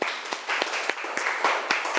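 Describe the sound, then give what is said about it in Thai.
A classroom of pupils claps for a classmate. Strong, evenly spaced claps land roughly three times per second over a continuous patter of lighter clapping, giving a loose group rhythm. “ดอกบัวปรบมือให้เพื่อนหน่อยครับ”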